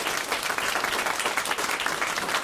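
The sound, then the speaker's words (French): A live crowd applauds on the port of Golfe-Juan at the bicentenary event marking Napoleon's landing. Dense, lively clapping from many hands holds steady and loud throughout, with no speech over it. “Et en public, écoutez-le, le public de Golfe-Juan. Qu'on salue.”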